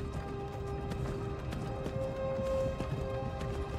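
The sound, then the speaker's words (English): Hooves clip-clop steadily as a horse pulls a rickety old wooden wagon in the video game Skyrim. The hoofbeats are evenly spaced and soft, set against faint sustained tones. “we find ourselves on a rickety old wooden wagon being pulled by a sole horseman.”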